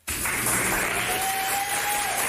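Applause from an audience greeting a playful mock wake-up: a loud, dense, steady wash of many clapping hands that starts abruptly and carries on evenly to the end.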